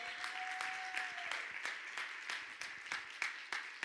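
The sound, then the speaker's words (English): A church audience claps hands in praise during a worship service, with steady, evenly spaced claps throughout and a faint sustained tone early on. “come on, let's give the Lord a hand clap of praise.”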